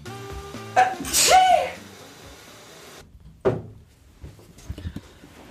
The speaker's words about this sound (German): das erste Mal auf Audio mein eigenes Niesen zu hören